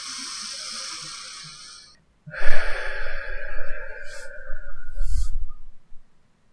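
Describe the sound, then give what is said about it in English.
A deep breath drawn in through the nose and released through the mouth, heard as two long, airy rushes of breath with no talk. The second rush is louder and longer than the first. “take another deep breath in through your nose and out through your mouth”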